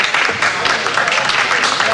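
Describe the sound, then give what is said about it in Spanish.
Audience applause as the mayor arrives, with the room asked to stand: a continuous spread of clapping and crowd noise at a steady, fairly loud level. “Gracias. Muchas gracias. Gracias por sus aplausos.”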